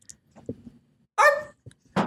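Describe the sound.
A person imitates a Pomeranian dog's barking with a few short, sharp yaps, the loudest a drawn-out, high, harmonic yelp in the middle, followed by a brief yip and a final bark.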